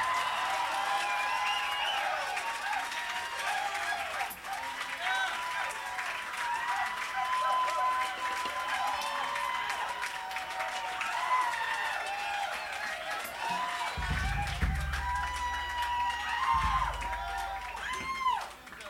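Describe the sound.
Sustained applause and cheering from a concert crowd welcoming a drummer back onstage, a steady wash of clapping with a few whoops and voices, holding at an even level throughout.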